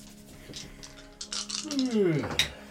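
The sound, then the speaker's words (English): Three dice rattle and clatter across a surface during a tabletop game, giving a few short, bright clicks and clinks of moderate loudness, while a voice talks over the later part of the roll. “Three dice.”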